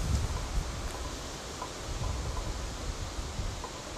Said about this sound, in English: You know, that wind's picking up and it's sounding pretty bad out here.